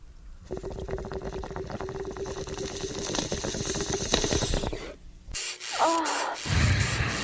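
Bong rip: rapid, continuous bubbling as smoke is drawn through the water for about five seconds, growing slightly louder, then a short pause and a breathy exhale.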